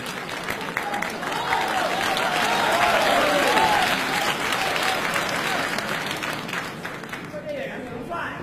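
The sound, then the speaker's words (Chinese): Sustained audience applause at a stage comedy and variety competition: a dense, steady wash of clapping that lasts throughout, with a voice briefly heard over it before the sound thins near the end. “戴志成助演，掌声有请。”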